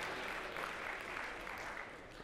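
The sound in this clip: Faint audience applause during a sermon, a soft, continuous patter of clapping at a low, even level throughout.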